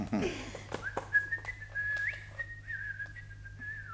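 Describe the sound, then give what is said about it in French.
A person whistling a faint, high, wavering melody with sliding notes, held over a quiet background with a few soft knocks near the start. “vous n'avez pas peur que ce soit une mauvaise note pour vous de siffler?”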